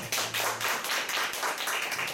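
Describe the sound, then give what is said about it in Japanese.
A church audience applauds in praise to God, loud clapping that swells in uneven, pulsing bursts. “もう一度神様に感謝の賛美の拍手いたしましょう。”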